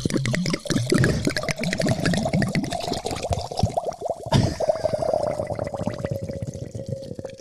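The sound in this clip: Liquid pours into a very large container with a continuous gurgling splash and a sustained resonant tone, briefly louder near the middle.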